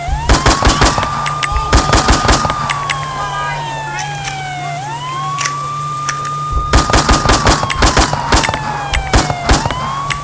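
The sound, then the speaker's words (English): Guns fire into the air in a few rapid bursts of sharp cracks over the long, sweeping wail of a police siren that rises and falls, with a pause in the shooting midway. “don't forget to fire your weapon in the air to make your presence known when approaching the suspect. Like so.”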